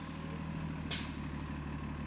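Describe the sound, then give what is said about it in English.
A city bus idles with a low, throbbing engine hum, and one short, sharp hiss of air brakes bursts out near the middle before the steady rumble carries on. “Tiana Ortiz steps onto a bus with her new personalized card”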